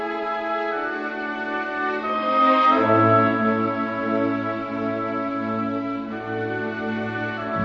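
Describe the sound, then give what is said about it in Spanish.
Mozart's Violin Concerto No. 4 in D major, K. 218, second movement, a slow, lyrical Andante cantabile of sustained, smoothly blended string tones that swell slightly and then settle. “Aquí está tocando maravillosamente bien el concierto para violín y orquesta número 4 en re mayor, índice que es el 218, del cual escuchamos ya el segundo movimiento, que es un andante cantabile, melódico”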